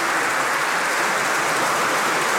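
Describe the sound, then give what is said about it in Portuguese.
Strong applause from party and guest benches in a parliament, a dense, unbroken wash of many hands clapping at a steady loud level, with no voices. “Aplausos muito fortes do PS e das bancadas dos convidados.”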